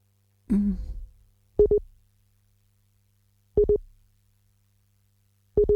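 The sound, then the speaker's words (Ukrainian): A telephone busy tone follows a dropped call: a brief clatter, then three short beeping bursts at steady intervals about two seconds apart, each a clean, mid-pitched electronic tone over near silence. “Алло. Ой, на жаль, увірвався зв'язок. Перепрошую, це не з моєї вини.”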